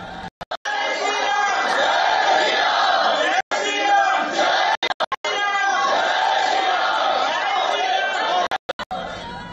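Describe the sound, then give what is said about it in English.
Indian diaspora crowd in Slovakia shouting, chanting and chattering as they welcome the Prime Minister on a state visit. Dense, continuous massed voices run throughout, broken by several abrupt brief cutouts. “The diaspora turned out in large numbers to welcome the Prime Minister.”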